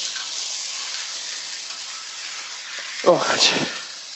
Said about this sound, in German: Rühren, Gemüse rühren. Rühren, dann nehme ich jetzt hier das Ding hier. Gemüse wird gerührt.